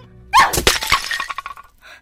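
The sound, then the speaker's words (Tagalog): Flower pots smash with one loud, sharp crash, followed by broken shards clattering and tinkling as the breakage quickly fades away. “Dapat dito sa mga paso mo, binabasag!”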